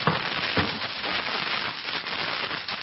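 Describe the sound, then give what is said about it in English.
Dense crackling and popping from a wood fire as a log is added, a continuous busy crackle with scattered sharper snaps throughout. “I'll put another log on the fire for you.”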